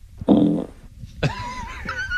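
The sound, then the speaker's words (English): A fart-like blast: a short, raspy, low burst, then a longer, pitched, wavering squeal-like noise. Both are loud, with no talk. “That's a fart. Okay. I'm ruling fart. See, there's no question that that's a fart.”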